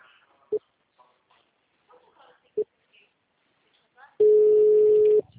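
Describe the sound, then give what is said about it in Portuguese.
Telephone call ringing through the line: two brief, clipped pips followed by a steady mid-pitched tone lasting about a second, with faint voices and small clicks between. “vamos ligar.”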